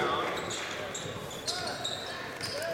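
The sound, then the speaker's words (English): A basketball is dribbled against pressure defense during a game. A few dull, thudding bounces sit under an announcer's voice and a constant wash of crowd noise. “Bork will dribble it through the pressure.”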